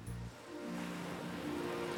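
Waves wash onto a beach in a steady broad hiss of surf that swells after a brief dip and keeps rolling for two seconds.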